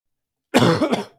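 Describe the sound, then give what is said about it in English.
A person gives one short, loud, rough cough with a smaller second push at its tail, heard alone after silence. “I don't know why I just coughed unmuted”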